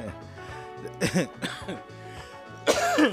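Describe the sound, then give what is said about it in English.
After choking, a person gives a few harsh coughs and throat-clearing bursts, with the loudest rasp coming near the end. “Ooh, excuse me, I choked myself up.”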